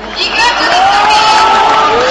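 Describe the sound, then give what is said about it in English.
A large crowd at a Serbian opposition rally for Vojislav Koštunica chants and cheers against Slobodan Milošević. The mass of voices forms a loud, unbroken roar that rises at the start and stays steady. “Many times throughout the night, the crowd chanted, he's finished, referring to Slobodan Milosevic.”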